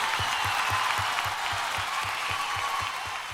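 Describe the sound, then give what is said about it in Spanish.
Sustained audience applause, a dense, even wash of clapping that carries on throughout, with a regular low thumping beat underneath. “Aplausos para ella, muchas gracias.”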